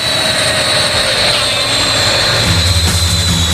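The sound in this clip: An airplane engine drones steadily, a loud continuous rumbling hum topped by a constant high whine that barely changes throughout.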